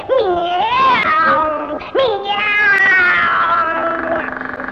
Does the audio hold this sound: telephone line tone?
no